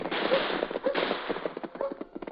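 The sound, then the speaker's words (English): Gunshots ring out in a staged gunfight sound effect for a Western drama, a rapid irregular string of many sharp cracks and pops in uneven bursts. “What's all the shooting for? I don't know, Dan. We seem to have run into a gunfight.”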